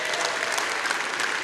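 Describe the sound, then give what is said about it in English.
Church audience clapping on cue, a thick, continuous burst of many hands at even loudness throughout. “Look at your neighbor and say, neighbor, now is not the time to be unfaithful. Okay, now clap that into your spirit,”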